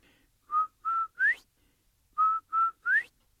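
Whistled imitation of a quail's call in a Cherokee story: two groups of three clear notes, each group two steady tones followed by a quick rising one, with a pause between the groups.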